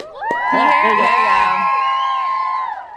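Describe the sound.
An audience cheers for Selena Gomez with high-pitched squeals and whoops that swell quickly and hold loudly before fading near the end.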